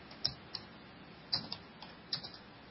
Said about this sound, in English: Let me type this in here real quick.